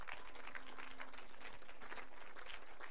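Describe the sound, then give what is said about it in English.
Faint applause from a church audience, a continuous, even patter of many hands clapping with no clear breaks. “Please clap your hands.”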